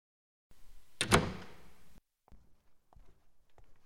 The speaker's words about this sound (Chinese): 把门关上吧。